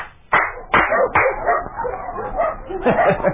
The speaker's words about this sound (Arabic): ما رأيت أكثر من كلاب الشيخ كأنها ترجو القادمة أن يشد أذنابها لتنبح.